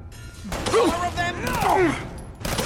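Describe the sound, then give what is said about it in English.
Gunfire rings out in a video game as a character is shot in the head, a few sharp shots spaced out under excited voices. “Oh my gosh. And I shot him in the head and he immediately went down.”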